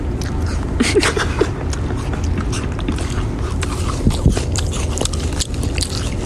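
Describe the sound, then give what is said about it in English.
Someone eats snacks such as Dunkaroos and Belvita biscuits right up close in the early morning hours, with many crisp bites and crunchy chewing sounds over a steady low rumble. “Stop eating in the freaking camera.”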